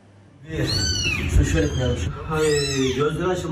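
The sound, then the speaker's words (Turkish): Newborn kittens trapped under a floor meow in two long, drawn-out, wavering cries, the second loud and sustained, with a soft thump between them. “Zemin altında mahsur kalan 3 yavru kedi sağ olarak kurtarıldı.”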